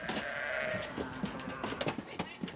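Sheep bleat in a barn where sick ewes and lambs are kept apart from a large flock. A long, wavering bleat is followed by several shorter calls and scattered knocks.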